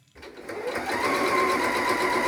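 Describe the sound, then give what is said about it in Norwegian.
A sewing machine stitches a festive national costume from reused old fabric scraps. It starts after a brief pause and builds quickly into a steady, rapid mechanical whirr that stays loud and even to the end. “det med gjenbruk av gamle stoffbiter til eh, festdrakt, det er også nytt for henne. Hun er nå i gang med å sy sin tredje festdrakt”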